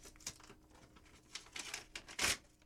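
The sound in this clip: Soft tearing and crinkling of a paper envelope being ripped open: a few faint rips and rustles that build to a louder tear near the end, with no talk.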